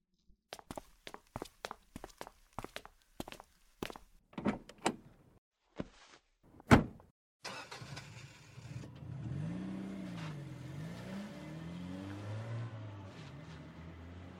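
A car engine running and being driven, its revs rising and falling in a steady wavering hum, preceded by a run of footsteps and a single loud thud like a door shutting.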